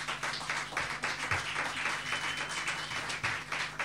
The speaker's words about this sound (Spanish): vamos a empezar a calentar los bracitos recibiéndolo con un fuerte aplauso, el señor Jonah.